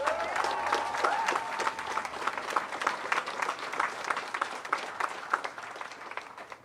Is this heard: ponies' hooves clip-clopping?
no